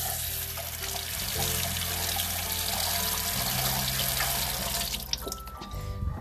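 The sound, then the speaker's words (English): Rushing water of a waterfall: a steady, continuous splashing flow that stays loud throughout, with a faint tonal hum underneath and no voices. “And then he wanted to put him in a waterfall, and here is the sound of it.”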